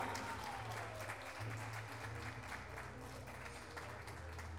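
Audience applause at a pluricultural gathering of indigenous peoples and living languages, a dense, steady wash of clapping that continues without a break, with a low hum underneath.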